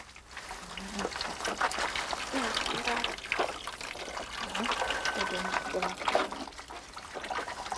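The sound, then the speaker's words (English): Liquid trickles and drains out of ground cassava paste as it is strained in a matapi, a device made entirely from rainforest materials. The faint, continuous splashing runs under a speaking voice. “The matapi is used to strain the liquid out of the ground-up cassava.”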